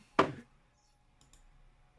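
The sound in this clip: A die rolled during a tabletop game lands with one sharp, bright click, followed by a couple of faint clicks and then near silence.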